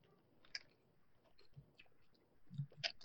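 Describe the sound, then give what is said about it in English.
Chewing on a meat-and-cheese flavored chip with a hint of onion: quiet, irregular crunches and small wet clicks, alone and faint. “Third chip. That one had a hint of meat. Cheese with a hint of onion.”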